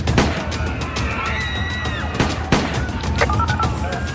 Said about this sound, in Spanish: ha abierto fuego, lleva una pistola.